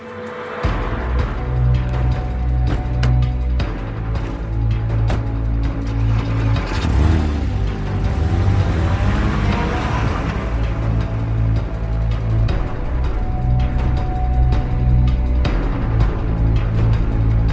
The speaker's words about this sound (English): rushes outside and jumps into her SUV.